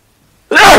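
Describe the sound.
A single sudden sneeze bursts out loud and breathy after a stretch of near silence during a talk on Indian philosophy.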